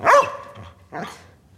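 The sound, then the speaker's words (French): A dog brought onto a film set barks twice: a loud, sharp first bark, then a slightly softer second bark about a second later, with no talk. “J'ai fait venir ce chien pour te montrer qu'il joue mieux que toi.”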